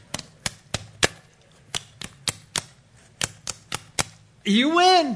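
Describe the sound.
Dice rolled in a game of Farkle, a quick run of more than a dozen crisp clicks and ticks, followed by a louder sweeping, warbling tone.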